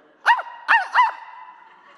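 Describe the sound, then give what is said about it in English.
A person imitates a small, yappy dog with three sharp, high yaps in quick succession. The last trails into a fainter, whiny tail. “It's my son-in-law. He is barking. We don't have a dog.”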